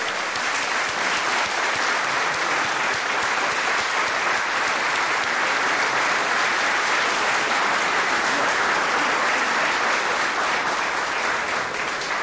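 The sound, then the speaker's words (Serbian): Sustained crowd applause for a winner at a radio award ceremony, an even, dense wash of many hands clapping that stays loud and steady for over twelve seconds. “Još je mlad, ima vremena i za duži aplauz, tako.”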